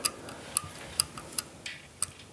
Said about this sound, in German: Oh, guck mal, ein Wecker.